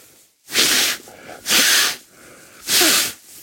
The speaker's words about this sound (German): Die Nase frei zu kriegen, ist, wenn sie gebrochen ist, nicht so. Nicht so einfach, weil schneuzen soll man nicht. Das ist jetzt so ein freies Schnauben